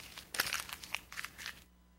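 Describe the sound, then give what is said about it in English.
A page is ripped out of a Bible: crisp tearing paper with crinkling, crackling bursts that last just over a second and then stop. “Let's say I'm just flipping through my Bible, and in Daniel, Daniel chapter 7 here, and I'm just going to rip this page out.”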